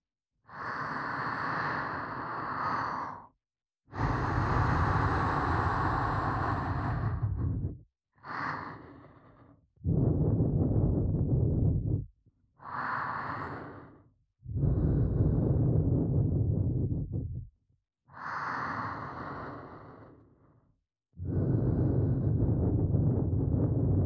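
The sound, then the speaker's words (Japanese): Soft ASMR blowing into the listener's ears: eight long, airy breaths, each several seconds, separated by short silent pauses, close, breathy and hushed, with no talk. “あなたがちゃんと私の元に来てくれたご褒美の続々お耳ふうふうで自覚しなさい。行くわよ。”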